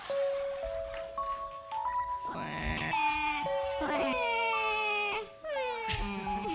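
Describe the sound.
A man imitates a crying baby, his voice wailing in drawn-out, bleating cries with sliding pitch and a strained, nasal tone.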